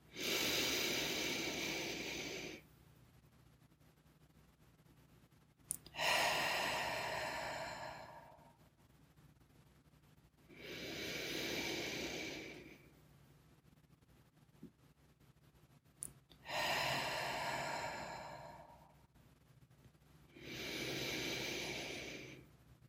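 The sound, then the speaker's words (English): Deep breaths in through the nose and out again, heard as a slow series of long, soft, breathy rushes separated by quiet pauses of a few seconds, with no talking. “take 3 deep breaths with me. In through the nose, hold at the top for 3 seconds, and exhale however you feel called, nose or mouth.”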